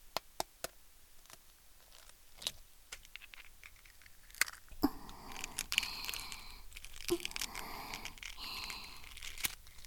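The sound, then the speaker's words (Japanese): Shell being peeled from a boiled egg: many small, faint crackling clicks and crunches, becoming a denser rustling, crinkling texture in the second half. “ゆで卵作りましたから、ほら、殻を剥いて。”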